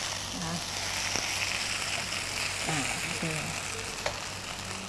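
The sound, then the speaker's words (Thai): Shanghai noodles with egg white stir-frying in a pan give a steady, even sizzle throughout, with an occasional light knock and a faint voice at moments. “สังเกตดูนะคะเวลาผัดเราจะไม่คนไปคนมาไม่งั้นเดี๋ยวเส้นจะเละนะคะเราต้องการให้ไข่ขาวเนี่ยเกาะติดกับเส้นเซี่ยงไฮ้นะคะ”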